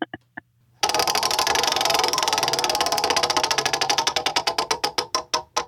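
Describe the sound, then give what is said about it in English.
A prize wheel spun by hand gives a few separate taps, then a rapid, loud run of ratcheting clicks that gradually slows, with the clicks spacing out more and more until the wheel nearly stops. “We are going to have to spin it now, and I will spin it for you in spirit.”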